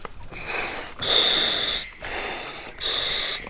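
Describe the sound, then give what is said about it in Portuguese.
Compressed air hisses from a scuba tank as its valve is opened and checked. Two loud bursts of bright hiss alternate with quieter, breath-like stretches in a steady on-off rhythm. “Agora vou abrir o ar. Confere se tem ar.”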